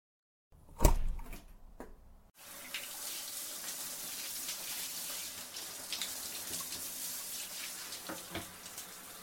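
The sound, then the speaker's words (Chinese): Shower water running: a few brief knocks come first, then a steady, even hiss of falling water continues to the end, with no voices. “你让我先去洗澡。”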